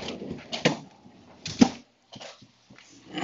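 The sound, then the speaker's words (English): A home freezer being opened: a few sharp clunks and brief rustling bursts separated by short quiet gaps. “let's have another sound, a sound of me opening the freezer.”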